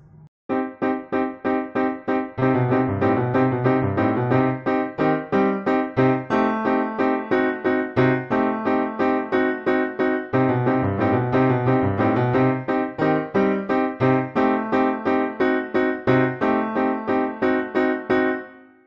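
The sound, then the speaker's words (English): Heavy, arm-driven piano staccatos from a Burgmüller Ballade: many loud, detached chords struck in a steady, pounding rhythm, each note clipped short, with a couple of brief gaps near the opening and a thinning at the end. “oftentimes they play the staccatos with their arms, which create a ponderous sound because the arms are so big and heavy that you get a sound like this.”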